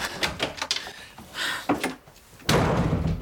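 A door closes as someone leaves, with a few light knocks and shuffles followed by one heavy, solid thud near the end.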